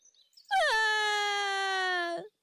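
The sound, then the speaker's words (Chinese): A person voices a long, loud wailing cry imitating a duckling crying out: a single sustained tone that dips sharply in pitch at the start, then holds steady before breaking off abruptly. “哇的一声，小鸭子哭了。”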